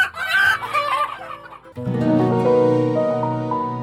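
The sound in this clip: A hen clucking: choppy, raspy clucks that give way to a longer, sustained tonal call.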